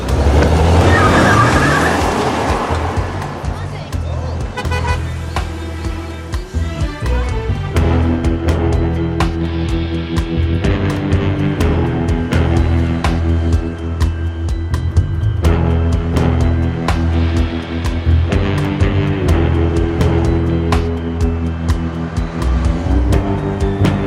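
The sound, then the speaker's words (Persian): A car is driving with a loud, continuous engine drone and low rumble, and light clicks recur throughout the ride. “ما سوار ماشین شدیم یا نه؟”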